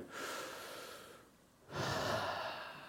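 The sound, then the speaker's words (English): Deep breath drawn in slowly through the airway, a soft breathy rush that swells, eases off briefly, then returns as a second full, airy breath, fairly quiet with no talking. “let's just all take a deep breath.”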